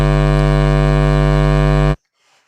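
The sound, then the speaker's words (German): Analog image signal transmitting picture lines: a loud, steady harmonic buzzing tone holds evenly, then cuts off abruptly just before the end, leaving near silence. “Was man hört, ist ein rhythmisches Piepsen. Das sind dann Zeilen aus dem Bildsignal, das wird analog übertragen.”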